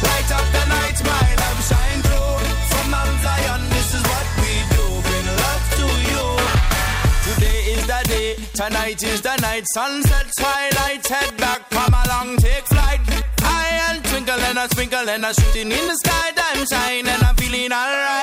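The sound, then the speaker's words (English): A Hasidic reggae song plays loudly, with a male voice singing and chanting lyrics over a steady, bouncing beat, deep bass and layered instruments, the rhythm tightening into choppy, syncopated hits midway. “And Hanukkah starts at sunset tomorrow, and we're celebrating with some Hasidic reggae.”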